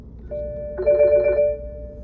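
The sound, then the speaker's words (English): Mobile phone ringing with an incoming call: a steady electronic ringtone that is joined midway by a brighter, richer burst of layered tones, then settles back to the single tone. “Somebody's calling me. Give me a second.”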